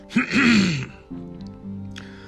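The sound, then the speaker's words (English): A person clears their throat once: a loud, rough, guttural rasp lasting under a second that then fades into quieter low sounds. “Clear that throat.”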